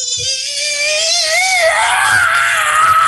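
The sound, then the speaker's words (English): A human voice imitates the scream a barn owl makes when cornered: one continuous, raspy, high screech that holds loud for about three seconds with no pauses. “There's also something like a barn owl. If you are a corner of a barn owl, now it could hurt you with its talons, but it's not really menacing. But if you cornered it, it makes this scream where it kind of goes,”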